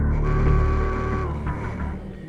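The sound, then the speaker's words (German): Mechanical hum of an elevator descending inside an exhibit in Bonn that simulates a ride down into the Mariana Trench: a steady, fairly loud droning whir with sustained tonal whine, holding even throughout with faint rattling toward the end and no voices. “Zusammen stehen wir in genau diesem Fahrstuhl, der ein Erlebnis verspricht. Und zwar abwärts zu fahren in den Marianengraben, mitten in Bonn. Und schon geht's abwärts, Meter für Meter.”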